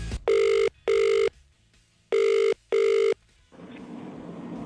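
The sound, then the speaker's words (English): An outgoing phone call rings out to a contest caller in four loud, steady electronic tones grouped as two double rings, followed by a soft hiss as the line opens. “It is time to ring our next caller.”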